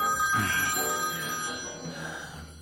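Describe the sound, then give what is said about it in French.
A mobile phone rings on a rusty scrap-metal table, a steady electronic ringing tone that holds at fairly even loudness for the whole short stretch. “Sur sa table en ferraille rouillée, son portable bourdonne”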